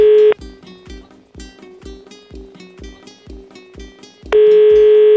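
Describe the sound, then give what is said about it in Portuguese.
Telephone dial tone while placing a call: a steady, loud tone sounds briefly, gives way to a run of many short, evenly spaced pulses for about four seconds, then the steady tone returns. “E aí, vamos ligar pro Sérgio Henrique.”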